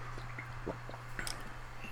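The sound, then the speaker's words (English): Chewing on a cheesy chicken and bacon Marie Callender's pot pie: a few faint, soft wet clicks and bites, spread irregularly over a low steady hum. “but I currently have a delicious pot pie in front of me and a glass of ice cold chocolate milk and some water.”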